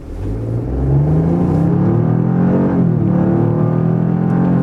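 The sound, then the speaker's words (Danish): Engine of a Toyota GR Yaris all-wheel-drive car with Torsen limited-slip differentials front and rear, driving on a Danish country road near freezing, revving steadily upward in pitch, dipping briefly near the end and then climbing again, with no talk. “hvordan kører så den Toyota GR Yaris. På en almindelig dansk landevej”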